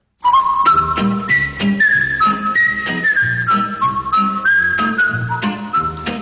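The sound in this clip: Whistled theme tune of the 1960s Andy Griffith Show, a clear, bright melody carried throughout over steady rhythmic backing instruments with a regular low pulse.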